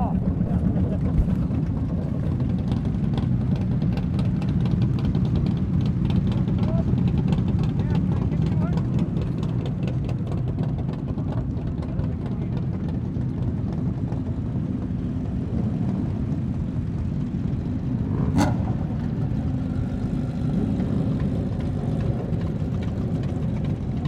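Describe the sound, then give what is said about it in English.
Motorcycle engines run in a steady, loud low drone that holds level throughout, with one sharp click near the end. “Audio recordings of the bikes.”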